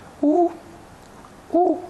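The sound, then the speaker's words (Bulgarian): Two short, tonal hoots of a Eurasian scops owl, the small summer owl now also nesting in Sofia, spaced just over a second apart above a faint, quiet background. “А совичката, за която говоря аз, е чухълчето, което аз го наричам предвестника, т.е. усещането за лятото”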